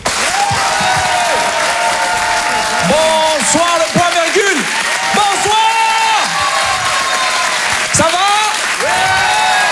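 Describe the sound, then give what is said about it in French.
A live comedy club audience applauds and cheers loudly, with dense, continuous clapping throughout and whoops and shouted voices rising and falling above it. “Je vous demande de faire un maximum de bruit, s'il vous plaît, mesdames, messieurs, en direct et en live sur Rire et Chanson”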